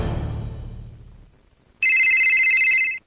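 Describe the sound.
A telephone rings once with a bright, warbling electronic tone that lasts just over a second. It comes alone after an earlier sound fades into a short silence.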